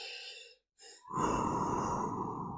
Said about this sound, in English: Stop. Think. Take a deep breath with me.